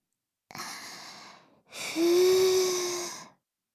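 Two soft breaths are blown into the ear. The first is short and airy. After a brief pause comes a longer, stronger one carrying a faint voiced tone.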